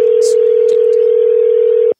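A telephone line gives a steady, single-pitched dial tone while a call is placed to a basketball player. The tone is loud and unbroken and cuts off abruptly just before the end.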